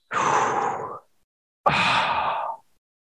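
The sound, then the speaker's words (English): A deep breath drawn in and let out: two long, breathy, fairly loud airy rushes, each about a second, separated by a short pause, with no talk. “Let's take a deep breath. Yeah. Take it.”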